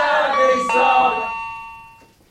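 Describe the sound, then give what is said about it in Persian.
An electronic chime from a door intercom rings before the handset is picked up. It is a bright tone with rich overtones that changes partway through and then fades out alone. “روحام گوشی آیفون رو بر می داره”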